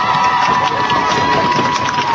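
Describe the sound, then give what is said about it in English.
Teammates in the dugout and fans in the stands at a softball game applaud and cheer for a courtesy runner, a loud, continuous, dense mix of clapping and crowd noise. “who gets a big round of applause from her teammates in the dugout and the fans in the stands”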